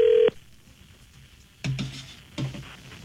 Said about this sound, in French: Oui, il est déjà en train de composer.